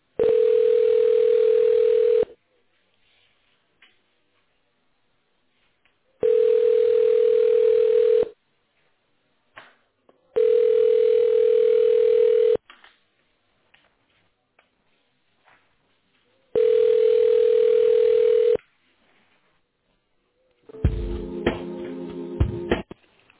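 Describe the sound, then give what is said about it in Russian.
Telephone ringback tone while a call to a Ford sales house is transferred to a personal manager: four long, steady, mid-pitched beeps, each about two seconds, separated by longer silent gaps. “Ваш звонок переводится на вашего персонального менеджера.”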